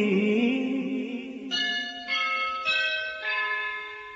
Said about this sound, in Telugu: ఎల్బోవి స్కూల్లో మొదటి గంటే మోగింది.